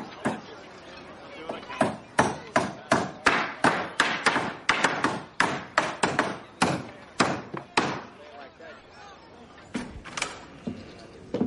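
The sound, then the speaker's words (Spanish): Wooden wall planks are set in place for a warehouse wall in a Western drama, producing many sharp wooden knocks and thuds in an uneven, fairly quick rhythm that continues loudly throughout. “Bullock y Star colocan los tablones de la pared del almacén.”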